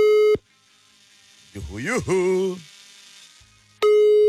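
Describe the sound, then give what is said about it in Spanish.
A telephone call tone sounds while a number is dialed, giving two short, loud, steady beeps a few seconds apart, with a brief voice speaking quietly between them. “Ya lo estoy marcando.”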